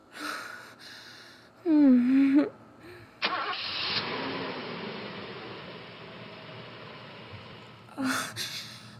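Car engine running while driving: a steady broad rumble and road noise that starts abruptly and continues to the end, preceded by a short voiced sound and followed by a brief vocal noise.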